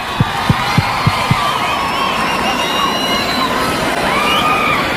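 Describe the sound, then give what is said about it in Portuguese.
An audience at a sertanejo music show cheers and claps in a dense, steady roar of crowd noise, opened by five quick low thumps. “boa salva de palmas”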